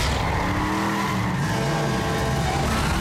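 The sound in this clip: A car overtakes another on the road, its engine roaring steadily with tire noise as the pitch of the engine shifts up and down throughout.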